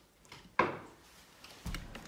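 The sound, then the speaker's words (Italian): A door being shut: a sharp wooden knock, then a duller low thump about a second later, with no talk over it. “Questa porta si chiude? Sì. La puoi chiudere un attimo?”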